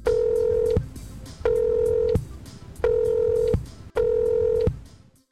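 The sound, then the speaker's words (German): Telephone number being dialed for a call to Nicaragua: four long, steady electronic tones of equal pitch, evenly spaced with short silent gaps between them, fairly loud and with no talk. “Dieses Mal telefoniere ich nicht nach Südamerika, sondern nach Mittelamerika.”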